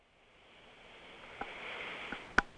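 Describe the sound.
A slow, deep in-breath during a guided breathing exercise rises as a soft airy hiss over about two seconds, with a few faint clicks.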